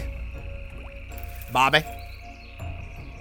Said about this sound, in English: Now we're in a swamp. And it's dark. And it's stinky. And I'm trudging through water.